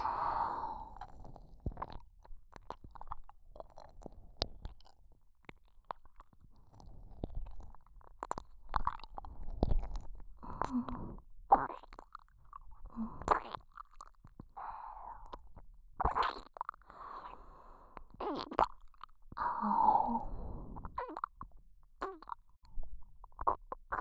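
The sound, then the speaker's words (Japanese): Wet mouth sounds come from ear nibbling: many soft, irregular smacks and squishy bursts separated by short pauses. They stay quiet and close throughout, with no speech. “君を気持ちよくするためなんだから、耳をハムハムしても君なら許してくれるよね。”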